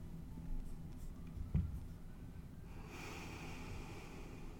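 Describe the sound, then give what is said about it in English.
Someone breathes heavily into a microphone, a faint, airy rush that starts partway through and carries on to the end over a low background hiss. “I don't know if you heard, but I just breathed heavily into the microphone.”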